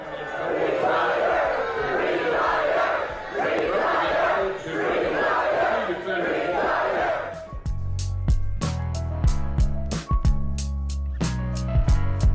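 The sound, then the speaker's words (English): A crowd at a Kentucky event heckles and chants at Mitch McConnell, loud rhythmic shouted bursts rising and falling for about seven seconds, then music with a steady beat cuts in. “Mitch McConnell being heckled in his home state of Kentucky at an event that he has gone to for 30 years.”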